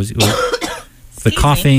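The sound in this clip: Coughing and throat clearing from a singer just before a live acoustic song, a few rough, loud bursts mixed with voiced sounds.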